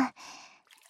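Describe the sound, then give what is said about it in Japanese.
Water poured over someone's back: a soft, brief splashing wash lasting about half a second after a short breathy onset, then faint trickling and drips. “まずはお体をお流ししますね。お背中から”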